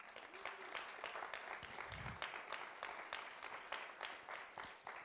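Faint applause from an audience of Penn State University students, a dense, even patter of many claps that continues steadily without a break.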